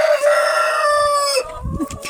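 Rooster crowing in the evening at a henhouse with eggs: one long, loud, strongly harmonic crow held steady for over a second, then breaking off into softer, rougher low sounds.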